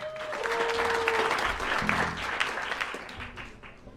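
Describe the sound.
Audience applause welcoming a jazz trio onto the stage at Lincoln Center: dense, steady clapping that holds at a fairly even level for several seconds.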